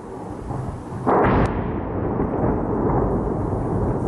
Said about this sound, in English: the sound there of Russian strikes on the Ukrainian capital, Kyiv, one that's been all too familiar in the last 4 years